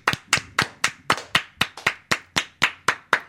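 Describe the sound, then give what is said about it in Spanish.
Rhythmic hand clapping in unison: thirteen loud, sharp claps at a steady, even pace, each with a short decay, and no talk over them. “Para que Daniela se entere, quiero que aplaudas con nosotros.”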